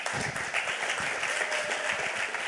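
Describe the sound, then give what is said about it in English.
Steady applause for a team at a tech lightning talk event, dense and even throughout, moderately loud with no voices standing out. “So give them a round of applause for that.”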